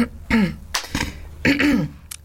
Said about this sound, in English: I love the way you cleared your throat.